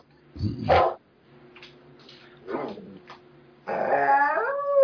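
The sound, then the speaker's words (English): A dog howls at night: a few short, scattered yelps and rustles give way to a sustained, wavering howl at the end. “There it is again. What's with that dog tonight? Goddamn werewolf.”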